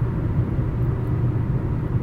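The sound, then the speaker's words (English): Car interior on the start of a nearly three-hour drive back from Blaine, Washington: a steady, low road rumble and engine drone, constant throughout with no voices. “Just got started on my almost 3-hour drive back from Blaine, Washington.”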